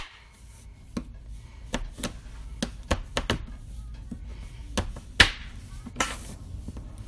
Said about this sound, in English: we're gonna cut the chocolate. Could have used a bigger knife